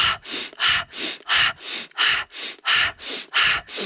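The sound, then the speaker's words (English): Fast, rhythmic breath-work breathing, drawn in through the nose and pushed out through the mouth. A quick, steady series of loud, airy breaths repeats without pause, with no talk. “So the breath, fully in the nose, half out the mouth, but it's quick. It's not slow. It's fast, rhythmic.”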